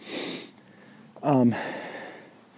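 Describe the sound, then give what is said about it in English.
Heavy breathing from a person catching their breath after climbing to the top of a hill: a breathy exhale, then a short, louder sniffing snort, faint and without talk. “I just got to the top of the hill. Let me catch my breath here.”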